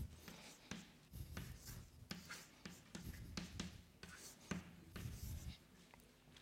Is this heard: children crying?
no

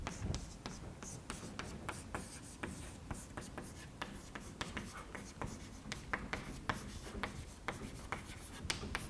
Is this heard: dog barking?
no

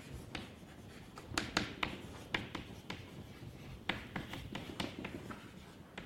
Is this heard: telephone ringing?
no

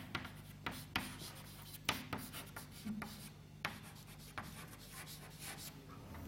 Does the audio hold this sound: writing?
yes

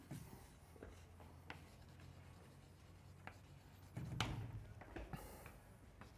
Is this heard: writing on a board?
yes

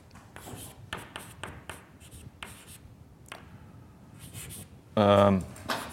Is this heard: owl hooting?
no

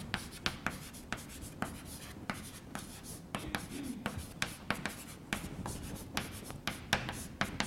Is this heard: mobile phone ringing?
no

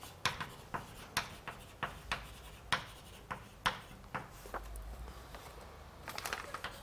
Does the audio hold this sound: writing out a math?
yes

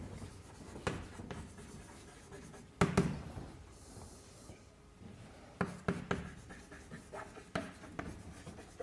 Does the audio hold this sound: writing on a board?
yes

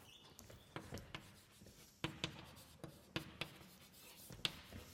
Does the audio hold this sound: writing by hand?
yes

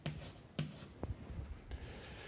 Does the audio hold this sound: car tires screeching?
no

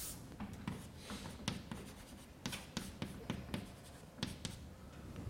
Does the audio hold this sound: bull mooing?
no

